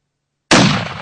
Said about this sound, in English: Should I shoot him again? Shoot him if you got him.